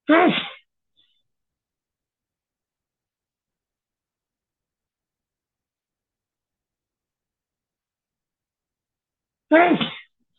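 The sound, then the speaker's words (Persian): Two short, forceful sneezes, one at the very start and one near the end, separated by a long stretch of silence. “ببخشید این عطسه و سرفه”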